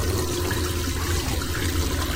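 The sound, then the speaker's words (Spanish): Water running from a tap over hands in a small airplane lavatory, a continuous, even rushing hiss that holds steady throughout with no voices. “mete las manos debajo del grifo. Cuando retiene agua suficiente, se la lleva a la boca.”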